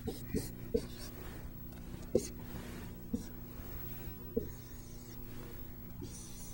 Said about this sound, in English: of x to the n plus nx to the n minus 1 times h plus h squared t sub n, just writing the expansion out again